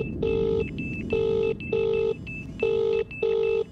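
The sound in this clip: Telephone ringing with an incoming call: five evenly pitched electronic ring bursts, a single ring followed by two closely spaced pairs, heard alone over a faint hiss.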